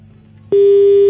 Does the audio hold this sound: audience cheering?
no